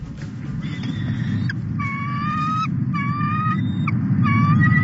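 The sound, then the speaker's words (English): A pair of bald eagles calling in several bursts of high, thin, tonal chirps over a steady low rumble of background noise. “That's the sound of a pair of majestic bald eagles named Jackie and Shadow”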